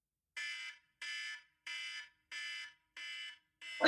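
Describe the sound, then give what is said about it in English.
Loud electronic alarm marking the end of a timed round in a film discussion game: five even, sharp buzzing bursts with short gaps between them, and a sixth just beginning as the sound cuts off. “And when the alarm goes off, which is going to sound like this.”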